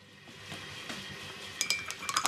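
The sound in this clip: Dishes and cutlery clink during washing up at home: a low, steady background first, then a quick burst of sharp glassy clinks and clatters in the second half.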